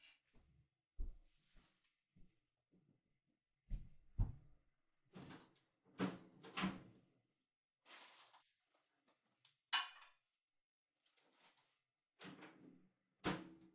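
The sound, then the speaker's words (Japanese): A microwave oven is handled to heat a bacon-and-cheese rice ball. Scattered clunks, knocks and door-like thuds come in short bursts, separated by stretches of quiet. “おにぎりは温めた方がいいですよね。”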